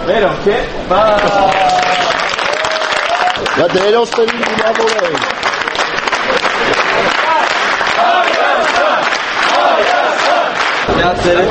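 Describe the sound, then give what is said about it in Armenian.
Fans at Zvartnots Airport in Yerevan clap and chant to welcome Armenia's national football team. The dense clapping is loud and continuous, with voiced chanting rising above it. “Այսօր վաղ առավոտյան Երևանի Զվարթնոց օդանավակայանում երկրպագուները ծափահարություններով և վանկարկումներով դիմավորեցին Հայաստանի հավաքականին։”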